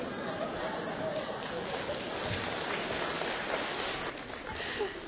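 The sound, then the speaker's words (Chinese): Applause from the audience of a crosstalk comedy show, a dense, steady wash of many hands clapping at an even loudness that eases slightly near the end. “两段真的是非常的精彩，而且是我们方清平自己执笔写的小段，来再次掌声鼓励一下。”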